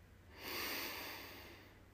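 A single slow, deep breath drawn in through the nose and mouth, swelling to a soft airy rush about halfway through and then tapering gently. It is fairly faint and heard alone.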